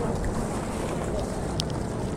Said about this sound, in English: So it's actually windy. Huh? Yeah. It's a windy day